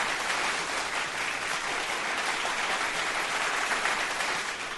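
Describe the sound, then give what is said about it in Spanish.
Applause from a crowd, a steady dense patter of many hands clapping at even loudness for several seconds, with no voices over it. “este tipo de cosas merecen unos grandes y bien merecidos aplausos”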